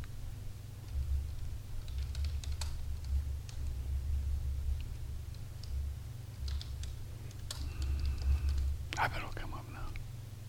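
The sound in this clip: Faint typing on a computer keyboard gives a few scattered light clicks over a steady low hum, with soft murmuring in the background.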